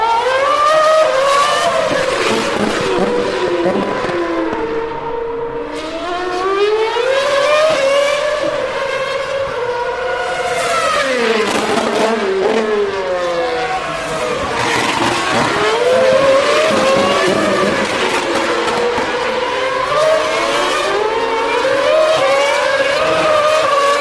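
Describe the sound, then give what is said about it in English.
Formula One race cars, including a Force India, a Toro Rosso and a Red Bull, scream past at speed at the end of a start-finish straight: loud, high-pitched engine wails with repeated rising sweeps as the cars pass one after another without pause. “That was a Force India at the end of the start-finish straight. Toro Rosso. The Red Bull.”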